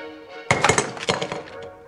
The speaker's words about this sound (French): Je prends cette boule de papier dans une main et cette boîte à sable dans l'autre. Je les lâche en même temps, ils vont arriver au sol ensemble.